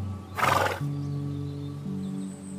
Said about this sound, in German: Glücklich verbringst du mit jedem der wundervollen Islandpferde einige kuschelige Minuten.